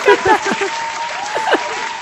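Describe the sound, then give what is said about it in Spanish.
A short applause sound effect played on cue: a brief burst of clapping with voices talking over it, fading slightly toward the end. “Podrías poner hasta un aplauso. Vamos, vaya aplauso.”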